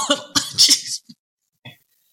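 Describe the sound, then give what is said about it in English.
A person clears their throat with a cluster of rough, raspy bursts in the first second, followed by two short, faint hacks. “Hurt my throat. Hold up. Let me clear my throat.”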